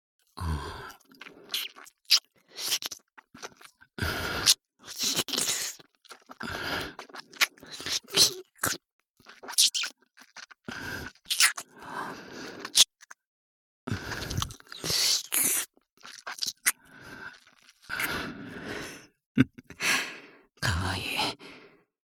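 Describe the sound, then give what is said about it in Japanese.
Wet ASMR mouth sounds of ear licking: many close, moist smacks and slurps in irregular bursts, with breathy sighs between them and brief silences. “お口でお耳にご奉仕させていただきます。”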